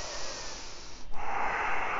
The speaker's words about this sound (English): Breathe in and out through your nose. Narrow the aperture of your throat.